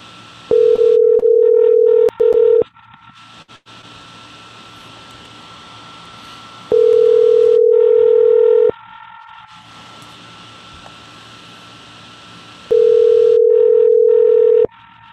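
Ringback tones on a telephone line reached through a computer dialer program: steady low tones of about two seconds each, separated by long pauses, over a constant hiss.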